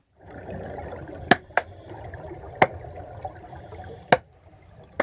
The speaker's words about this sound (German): Kegelrobben klatschen unter Wasser. Und das klingt so.